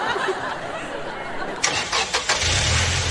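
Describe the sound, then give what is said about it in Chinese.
A car engine starts during a driving lesson, with the car about to pull off in first gear. Faint clicks and a brief cranking come first, then the engine catches and settles into a low, steady hum. “左脚离合，右手挡，一档起步开始”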